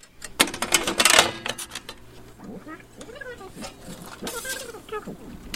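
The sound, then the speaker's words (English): Rattling clicks and squeaky mechanical chatter from an old reel-to-reel tape machine being cued up, with pinch roller sounds; a dense burst of clatter comes first, then lighter squeaks continue while a voice talks. “cues up an old reel.”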